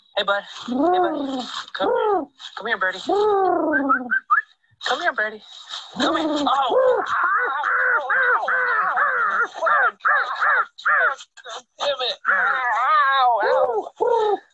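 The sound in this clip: Harsh, repeated calls from a bird that has been pecking at a person's face. Many caw-like cries come in close succession, loud and nearly continuous.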